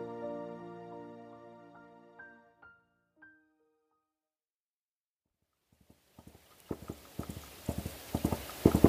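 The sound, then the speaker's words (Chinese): Horse hooves clip-clopping as a horse is ridden through farmland. A quiet, steady run of many hoof strikes builds in loudness. Before it, sustained musical tones fade out and a stretch of silence follows. “孔宝此时正骑着马穿过农田”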